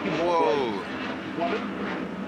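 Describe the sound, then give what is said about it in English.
A jet fighter flies over near an airport with a steady, broad roar that fills the whole stretch while a voice talks over it. “whoa, that was a jet fighter, bro. Excuse me, sorry about that.”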